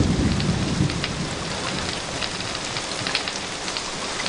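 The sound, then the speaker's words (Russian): A heavy downpour in a thunderstorm hisses steadily and densely with many fine drop impacts, while a low rumble of thunder sits beneath the rain near the start. “Теперь к всполохам быстро приближающейся грозы прибавилось недовольное ворчание грома, и внезапно хлынул ливень.”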